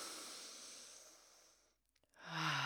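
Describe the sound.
A slow, deep breath is taken during a guided pause: a long, soft, airy rush that fades out, a brief silence, then a louder breathy exhale.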